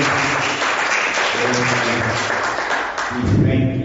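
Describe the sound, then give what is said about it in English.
A church audience claps in praise, a steady wash of applause that swells louder near the end. “Give God a hand clap of praise.”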